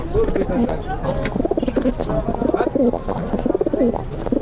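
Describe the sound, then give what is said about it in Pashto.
Pigeons coo in a pigeon house, with repeated low, throaty, warbling coos in a steady rhythm under people talking. “دغه کوتره چې اوس ده، دا غمبر وهي که نه؟ وو وهي، ولې نه وهي.”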